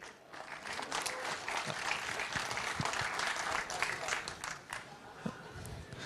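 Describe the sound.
Audience applause welcoming the next speaker at a technical talk: a steady, dense patter of many hands clapping throughout, with a few sharper individual claps standing out.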